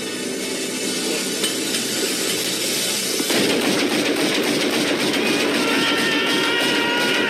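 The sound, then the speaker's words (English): Gunfire shot wildly into the sky during a rainy film scene: a dense run of many sharp cracks breaks out partway through and keeps going over a steady hiss of rain. “So he's going, raise his gun to the sky and start shooting wildly into the sky because he can't shoot his mate.”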